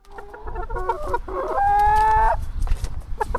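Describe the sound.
Chickens cluck in a backyard coop in a family-house garden in Telč: a few short harmonic clucks, then one loud, long drawn-out call, followed by quieter clucking.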